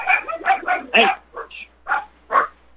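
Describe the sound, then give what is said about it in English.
Dogs bark excitedly in a run of several loud, separate barks, the first few coming quickly and the later ones more spaced out. “So I got to let you go. The dogs are going crazy.”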